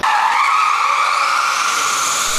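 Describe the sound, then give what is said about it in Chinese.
Loud, continuous tire squeal from a race car drifting in a demonstration run in Shanghai. The high screech holds steady without a break for the whole clip. “经过机械师的调试，车手塞巴斯蒂安·布埃米在福大的场地里表演了拿手的漂移秀。”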